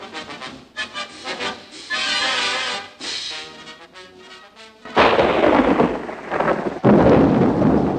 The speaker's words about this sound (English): Nighttime. Rain slashes through a deep blue sky filled with black storm clouds.